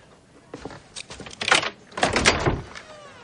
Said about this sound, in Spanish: la coge y retira el pestillo de la puerta